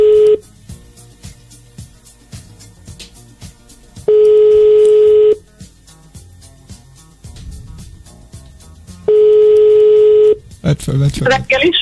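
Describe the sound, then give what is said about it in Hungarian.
Telephone ringing tones on a morning show's call to a listener who wins a gift pack: three long, steady, mid-pitched tones separated by pauses of a few seconds, with talk and music underneath and voices rising at the end. “Hívjuk a naphallgatóját már is, ha mondja, hogy reggeli show, kapja az ajándékcsomagot.”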